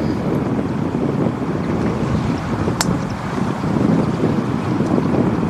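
Wind blows across a links golf course lined with gorse and pot bunkers, a steady, unbroken rushing roar that buffets the microphone at an even level throughout.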